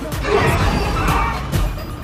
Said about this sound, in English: A recreational vehicle comes crashing around a corner with Graham at the wheel.